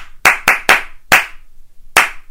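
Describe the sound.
Children clap a rhythm back: five crisp, loud claps, the first three close together, then a short gap before the fourth and a longer pause before the last, alone with no talk.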